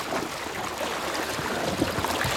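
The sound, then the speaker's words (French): Water sloshes in waves inside a bathtub, a continuous, fairly faint hissing and splashing wash with small gurgles, with no voices. “Des vagues. Ça fait des vagues. Des vagues de plus en plus grosses.”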